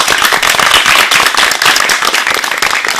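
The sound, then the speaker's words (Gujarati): Loud audience clapping, a thick, fast patter of many hands that carries on without a break for the whole stretch. “તો પાડો તાળી.”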